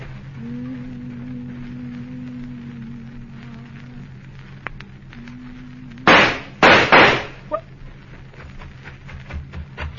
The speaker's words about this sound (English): you shot him.